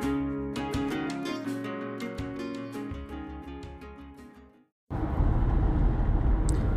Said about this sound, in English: So I am obviously driving because that's when I talk to you.